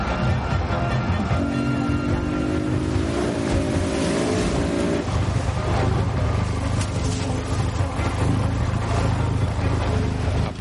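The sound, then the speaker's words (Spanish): Motorboat engine drones steadily as the boat moves through vegetation along a river channel, a loud continuous hum with a wavering tone in the middle. “La lancha entre la vegetación que puebla una manga del río.”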